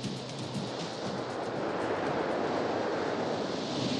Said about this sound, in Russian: Над волнующимся зимним морем нависли серые тучи. Волны разбиваются о берег.